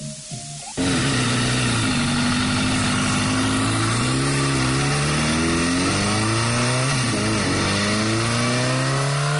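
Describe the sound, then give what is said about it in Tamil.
A motorbike riding up: after a brief faint start its engine cuts in abruptly as a loud, buzzing drone whose pitch wavers up and down as it revs, holding steady and strong to the end. “நில்லுங்கோ, நில்லுங்கோ, நீங்கள் ஏன் இவ்வளவு வேகமா வந்த நீங்கள்? நாங்கள் வேகமாக motor பைக்கில் வரவில்லை, சாதாரண வேகத்தில் தான் வந்த நாங்கள்.”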